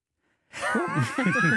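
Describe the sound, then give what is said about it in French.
A yawn muffled behind a face mask: one drawn-out, wavering voiced exhale that starts abruptly and holds for about a second. “J'ai tout fait un bâillement derrière mon masque.”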